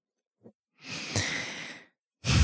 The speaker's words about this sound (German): Atme nochmal tiefer ein und aus.